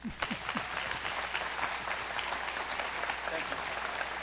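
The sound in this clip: A crowd applauds a guest speaker at a church service, a loud, dense and unbroken wash of clapping that stays level throughout.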